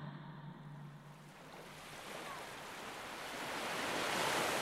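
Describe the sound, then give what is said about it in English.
Ocean waves washing onto a beach seashore, a broad, steady rushing wash that slowly swells louder toward the end, with no voices. “That's the sound of waves by the seashore.”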